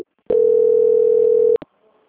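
A single steady telephone tone plays during a call transfer. It is loud, even and unchanging for just over a second, then cuts off and is followed by a brief click.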